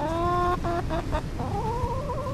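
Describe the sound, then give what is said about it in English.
Chickens cluck around the front of a homemade backyard coop: a few short, bright, harmonic clucks in quick succession, then longer drawn-out calls, moderately loud over a steady low background. “They're for chickens. Several of them are hanging around the front section of a coop that Steve Reese built himself.”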